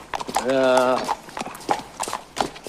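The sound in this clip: Hooves clop as the horse Beauty is led out, making a few irregular knocks mixed with voices talking.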